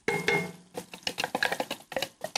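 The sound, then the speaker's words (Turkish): Finely chopped onion being sautéed and stirred in a pan, with many irregular scraping and tapping clicks from the stirring over a soft sizzle. No one speaks. “Kavurmayı birazcık işte kavuracağım soğanı güzelce.”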